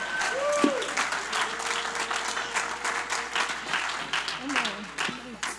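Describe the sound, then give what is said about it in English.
A church audience bursts into lively, sustained applause that keeps a dense, even texture throughout. Voices speak and call out over the clapping. “Give them a hand.”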